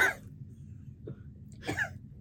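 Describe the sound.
A few brief coughs from someone after something went down the wrong pipe: short, faint throat-catching bursts separated by pauses.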